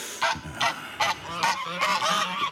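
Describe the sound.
Geese honk in loud, harsh nasal calls: four separate honks spaced about evenly, then a denser stretch of overlapping honking to the end.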